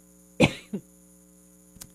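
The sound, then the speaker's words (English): A person gives one sharp, loud cough and then a softer second cough, followed by a faint brief throat sound, over a low steady electrical hum. “Hang on a second while I cough for a second.”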